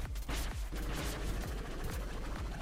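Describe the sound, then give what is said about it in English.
A video game boss shoots projectiles out of her head, a rapid run of sharp, booming bursts, like gunfire, repeating at irregular intervals over steady low noise, with no voices. “She just shot projectiles out of her head”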